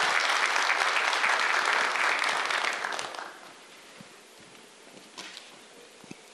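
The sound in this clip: Loud, dense applause from the audience at a formal ceremony as a guest is invited on stage, a full roar of clapping for about three seconds that then drops to scattered faint claps.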